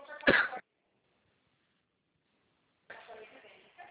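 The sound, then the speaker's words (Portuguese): A person who has just choked coughs once, short and sharp. Silence follows, and then someone starts speaking. “Desculpa, engasguei aqui.”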